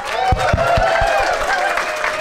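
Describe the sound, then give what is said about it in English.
Audience applause and crowd noise as a host is welcomed onto a stage, a steady dense wash of clapping that holds at an even level throughout. “So if we could put our hands together, welcome to stage, it's Dick Griblett!”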